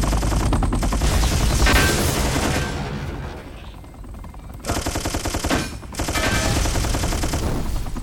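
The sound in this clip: Machine-gun fire in a video game: long, dense bursts of rapid shots, loud and sustained, easing into a quieter stretch midway before the fire returns in full with a brief break.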